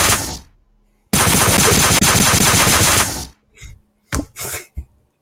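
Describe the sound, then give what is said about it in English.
Assault rifle shots: the tail of a loud burst fades out, then a sustained rapid automatic volley runs for about two seconds. A few short, sharp bursts follow after brief pauses. “That was a horrible assault rifle shots. Those were bad.”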